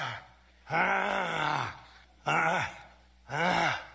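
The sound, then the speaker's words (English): A Trump grunting sound effect gives three drawn-out, loud voiced grunts, each a rough groan that rises and falls, separated by brief quiet gaps. “Insert Trump grunting.”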